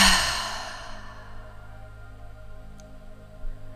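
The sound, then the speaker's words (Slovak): A deep exhalation during a guided breathing exercise: a breathy rush of air that is strongest at the start and fades over about a second, followed by near-quiet background. “Ešte jeden nádych. A hlboký výdych.”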